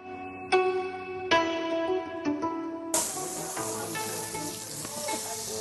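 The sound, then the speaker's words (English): A large steak sizzles on a tabletop Korean barbecue grill. A bright, steady hiss swells in partway through and continues over sustained tonal sounds. “That's the sound of sizzling Korean barbecue coming live from New Malden. So we have a huge piece of steak sizzling on our tabletop barbecue,”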